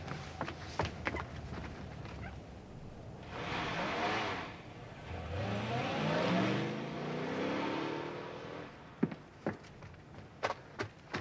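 A car engine revs and pulls away, its note swelling and rising in pitch as it accelerates, then fading. A few sharp knocks and clicks come before and after.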